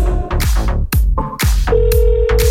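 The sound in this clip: Ringback tones from an outgoing telephone call sound as a repeating pattern of short tuned tones with ringing decays, followed by one steady held tone at the end.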